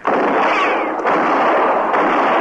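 A gunshot fired at a man fleeing toward tied-up horses sounds as a loud, harsh blast of broad noise that holds steady for about two seconds without a break, with no talk.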